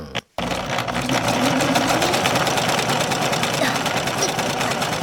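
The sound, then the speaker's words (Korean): Foot-treadle sewing machine running with a fast, even mechanical clatter that settles into a steady, loud rhythm after a brief start. “열심히 재봉틀을 굴리는 보희와 문희.”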